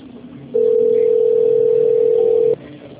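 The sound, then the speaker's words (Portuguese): Telephone ringing tone while an office call is being transferred: one steady, mid-pitched electronic tone lasting about two seconds, alone over faint background hiss. “Deixa eu tentar transferir para a Tamara, peraí. Transferência. Ainda a Tamara está chamando.”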